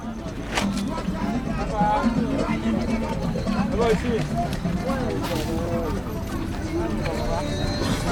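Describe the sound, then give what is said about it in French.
Hooves of a black zebra pulling a wooden two-wheeled cart along a road, a steady clip-clop with people talking over it. “C'est une charrette en bois tirée par un zèbre noir. Elle est soutenue par 2 roues.”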